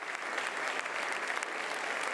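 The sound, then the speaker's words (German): Long applause from a full auditorium welcoming a guest, a dense, steady roar of many hands clapping with a few sharper individual claps standing out. “Als Mario Draghi in die vollbesetzte Aula kommt, wird er mit einem langen Applaus begrüßt.”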